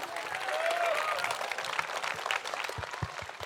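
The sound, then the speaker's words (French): An audience gives an ovation for a group of young school performers, with faint, sustained applause and crowd noise that continue throughout. “je voudrais une ovation pour tous ces jeunes-là, s'il vous plaît. Du bruit !”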